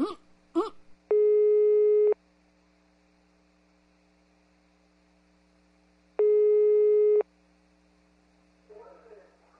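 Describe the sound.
A telephone busy signal sounds while a call is being placed: two steady, harmonic-rich tone bursts of about one second each, separated by a long gap, over a faint mains hum. Brief snatches of voice come at the start and end.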